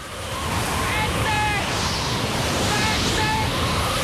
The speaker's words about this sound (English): A powerful wind picks up.